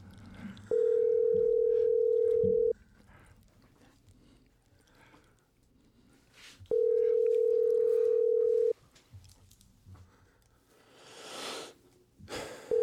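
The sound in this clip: Unanswered telephone call ringing: two long, steady ringback tones, each about two seconds, separated by a few seconds of quiet with faint breathing and rustling.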